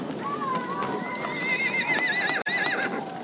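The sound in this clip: A horse neighs in one long, wavering, high whinny of about three seconds, loud and steady, during a ceremonial blessing with fermented mare's milk before a Mongolian horse race.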